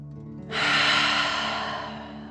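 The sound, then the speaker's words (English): A deep breath in and out through the mouth during a guided breathing exercise: a soft, airy rush begins after a short pause, swells quickly, then thins out slowly without stopping. “Ready? Deep breath in and out.”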